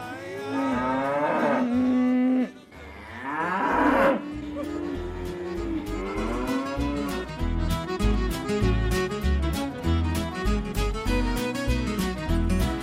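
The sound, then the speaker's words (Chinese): Calves mooing while being herded by a cowboy: two long, loud, drawn-out moos, followed by music with a steady beat. “所以牛仔仲系一边唱住歌，一边赶住呢啲小牛。”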